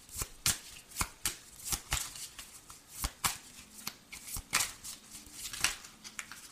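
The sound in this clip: Cards shuffled and drawn for a card reading: many crisp, snapping riffles and flicks in an uneven rhythm, fairly faint, with no talk over them.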